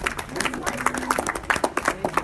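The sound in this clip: Audience applause after a group invites a round of applause for a child: a brief burst of scattered, moderately faint hand claps.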